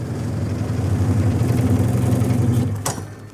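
A bread slicing machine runs as it cuts a loaf, giving a steady, loud, low motor drone with a buzzing harmonic hum. The drone winds down near the end, and a sharp click follows.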